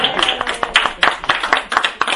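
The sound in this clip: A small group claps to welcome a new officer, with quick, uneven individual hand claps overlapping in a loose rhythm throughout, moderately loud.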